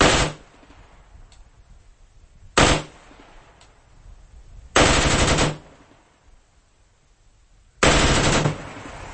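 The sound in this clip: A rifle fitted with a bump stock fires four short bursts of a few rapid rounds each, loud cracking volleys separated by quiet pauses of two to three seconds.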